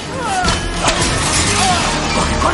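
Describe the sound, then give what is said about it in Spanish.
A water hose whips and thrashes as it strikes men in a comedy action film, with a few dull crashing hits and thumps over a dense, noisy rush. “Max abre el grifo. La manguera se retuerce y golpea a los hombres.”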